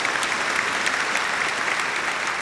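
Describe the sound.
An applause sound effect plays as a small round of celebratory clapping, an even, continuous patter of many hands at moderate volume with no break.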